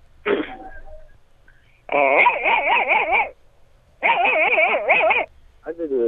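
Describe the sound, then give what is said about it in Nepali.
A person imitating a dog while out on a road: a short vocal yelp, then two long wavering, whimpering howl-like bursts with a quivering pitch, and the start of another. “आज यसो बाटोमा छु दिदी, आज कुकुर नकल गर्छु दिदी।”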